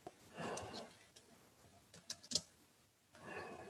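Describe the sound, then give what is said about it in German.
Sporadic typing on a computer keyboard: a handful of soft, sharp key clicks at irregular intervals, separated by quiet breathing. “Ja, du tippst schon fleißig mit.”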